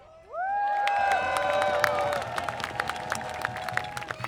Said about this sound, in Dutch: En dat verdient een klap.